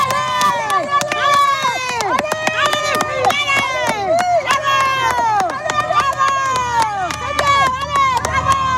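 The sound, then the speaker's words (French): A roadside crowd cheers loudly as women cyclists arrive on a 6% climb during a race. Many overlapping shouts and calls with falling pitch keep up a dense, excited roar throughout. “il y a déjà les encouragements, même si les coureuses ne sont toujours pas arrivées, et il y a les coureuses qui arrivent. Attention, ça va faire du bruit.”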